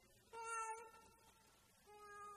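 Cats meow in a bathroom decorated as Umbridge's office at a party. Two drawn-out, tonal meows sound faintly, the first long and steady and the second beginning after a short pause.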